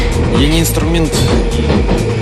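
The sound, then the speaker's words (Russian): Continuous low rumble and rattle inside a moving train carries steadily under a caller's voice talking. “Он в поезде.”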